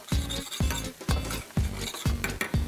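Porcini mushrooms fry in a pan while a utensil stirs and scrapes them in about six regular strokes over a steady sizzle.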